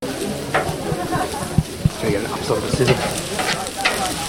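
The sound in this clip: Democracy sausages sizzling as volunteers cook them at an Australian election: a continuous frying hiss with a few sharp pops and stirring scrapes, with voices in the background.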